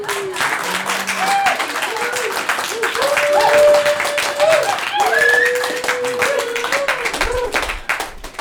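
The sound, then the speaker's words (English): Audience applause at a commemoration gathering, a steady stretch of clapping lasting the whole clip, with voices and some tonal sounds rising above the crowd noise. “So where's my applause?”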